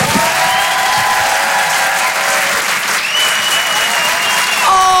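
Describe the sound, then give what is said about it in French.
Comedy club audience in Paris applauding as a comedian is brought on stage: loud, steady, dense clapping that holds without a break, with a whistle or two audible above it. “Faites du bruit s'il vous plaît pour le phénomène Paul Taylor.”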